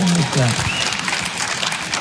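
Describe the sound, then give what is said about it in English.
At a stand-up comedy show, the audience claps steadily at a moderate level. A man's voice is heard briefly at the start before the clapping carries on alone. “Yeah, you can clap for the lady.”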